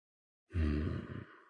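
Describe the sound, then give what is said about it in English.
A man takes a deep breath and lets it out slowly in a single quiet, voiced sigh of about a second, trailing off softly after a sudden start out of silence. “He takes a deep breath, exhaling slowly.”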